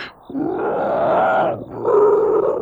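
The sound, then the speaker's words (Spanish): A man's deep, wolf-like growl, voiced and rough, in two drawn-out, fairly loud bursts separated by a short dip midway, with no talk. “Y gruñó de una manera que, nuevamente, pareció el gruñido de un lobo.”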